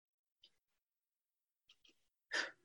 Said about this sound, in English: Taking a breath.